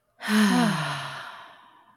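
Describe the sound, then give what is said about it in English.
A single long exhale through the mouth during a breathing exercise: a breathy sigh with a slight voiced edge at the start that slowly fades out. “Nice little inhale through the nose. Exhale through the mouth.”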